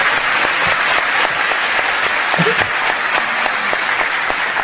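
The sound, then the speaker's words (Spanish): Audience applause for a speaker at a talk, a dense, steady wash of many hands clapping that holds at an even level throughout. “¿A qué le dan ustedes ese aplauso?”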